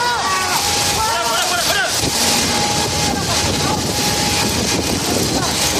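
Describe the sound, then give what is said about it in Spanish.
Strong wind roars over the microphone while firefighters battle a wildfire. The loud, continuous rush carries a wavering engine whine and indistinct voices. “Esto que escuchamos son los bomberos que durante estos días luchaban literalmente contra el fuego con el elemento del viento, peligroso elemento que cambiaba la dirección de las llamas de un segundo para otro.”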